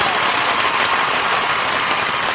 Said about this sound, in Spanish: Ustedes no dejan de aplaudir y nosotros no dejamos de cantar hasta que desquiten lo que pagaron.